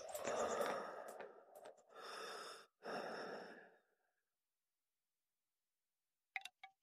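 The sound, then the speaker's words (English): A person breathes in a few slow, airy breaths close and fairly loud, followed by silence and a couple of faint brief clicks at the end. “I love hearing your breath.”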